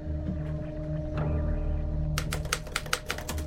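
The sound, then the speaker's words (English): Typewriter keys clacking as a sailor adds to a report. After a stretch of steady low hum, a quick burst of sharp clicks arrives in an uneven rhythm and continues to the end. “A sailor adds to a report on a typewriter”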